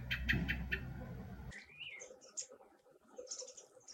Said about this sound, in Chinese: 对面那个松树上，它有一个黑土白脸，那个就叫个黑冠山雀。这来了，来到这棵松树上了，这个鸟，看。